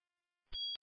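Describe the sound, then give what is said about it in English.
High-pitched electronic beeping from a fire indicator panel signalling an alarm in a warehouse: two short, steady tones, the first longer, after near silence. “Interrogating the fire indicator panel, we have a alarm in warehouse 10.”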